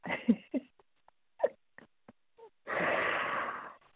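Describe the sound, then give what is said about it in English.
A slow, deep breath during a guided breathing exercise. A few faint short clicks and puffs come first, then one long, soft, airy rush of breath lasting about a second. “breathe as I'm breathing”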